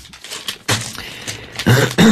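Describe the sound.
Coughing from someone ill with swine flu: a few short, rough bursts, loud and separated by brief pauses.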